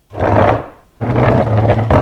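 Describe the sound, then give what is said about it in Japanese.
Chair being pushed forward across the floor backstage at a stage show, making two long, loud grinding scrapes separated by a brief pause. “ああ、椅子もう少し前です。”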